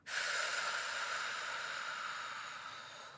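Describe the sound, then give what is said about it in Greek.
A slow meditation breath exhaled through the mouth with slightly pursed lips: one long, airy hiss that starts abruptly and fades gradually over about three seconds, with no talk. “και η εκπνοή θα γίνει από το στόμα με ελαφρά σφιγμένα χείλια. Βαθιά εισπνοή, εκπνοή,”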